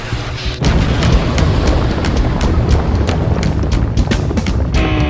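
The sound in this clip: A rocket launch roar: after a brief lead-in, a loud, dense rumble bursts in and holds steady, crackling with sharp pops throughout.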